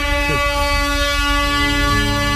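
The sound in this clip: An air horn sound effect used as a jingle blares a loud, sustained, buzzy tone that stays level for the whole clip, with a couple of brief sliding squeals near the start.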